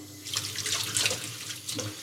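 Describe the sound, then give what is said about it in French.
Running tap water rinses desalted mackerel under the faucet for ceviche, a steady broad hiss with shifting splashes and gurgles throughout, and no talk. “Donc là, le but, c'est juste rincer. sans les laisser dans l'eau.”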